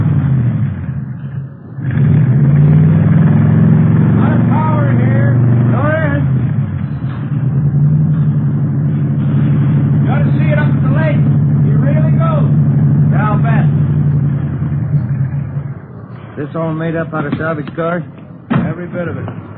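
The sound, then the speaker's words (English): A 120-horsepower car engine, built up from scrap parts, runs with a steady low droning hum throughout while people talk over it. “120 horses under there. Yeah, sounds good. Listen to that. Beautiful, isn't it?”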